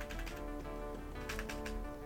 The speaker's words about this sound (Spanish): Se escucha todo, muchachos, disculpen. Toco el teclado y se escucha todo.